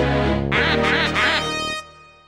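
Duck quacks come in three quick nasal bursts, set in a children's alphabet song over sustained musical tones. A held chord then fades out alone.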